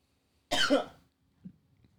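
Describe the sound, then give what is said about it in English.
A person coughs after inhaling Rolling Rock beer: one harsh, loud cough burst, then a few faint throat sounds. “Oh my god. I inhaled that Rolling Rock.”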